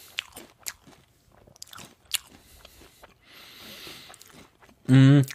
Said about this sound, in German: Nee, ich esse Smacks, keine Chips